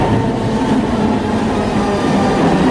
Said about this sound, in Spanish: ¡Oh, pero ahí viene un metro tan puntual como siempre!